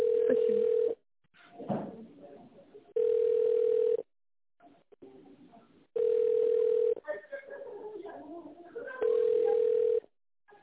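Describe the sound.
Ringback tone on an office phone line while a call is being transferred: four steady, evenly spaced tone bursts of about a second each, with muffled talk and noise in the gaps.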